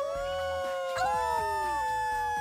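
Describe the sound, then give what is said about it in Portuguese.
People at a festive gathering imitate a wolf howl, with long wavering voiced tones that slide in pitch and overlap, fairly faint. “começaram logo a imitar o uivo do lobo”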